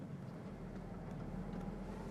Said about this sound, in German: Ich fahre hier jetzt rückwärts rein, weil ich nicht genau weiß, wie das da hinten aussieht. Auch so eine enge Ecke hier.